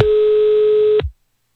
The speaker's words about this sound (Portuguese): Vou ligar agora